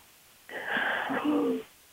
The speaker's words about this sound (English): So can we just take 3-4 big breaths with the diaphragm, not with the shoulder, and breathing in deeply